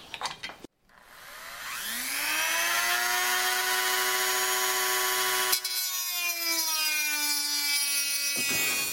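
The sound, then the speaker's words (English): A Dremel rotary tool cuts into a plastic Nintendo console. The motor spins up with a rising pitch into a loud, steady, high whine, then cuts off abruptly at the end. “And shall we go ahead and sacrifice the Nintendo? First goggles, though, before I start cutting into it, because I don't want flying pieces of plastic.”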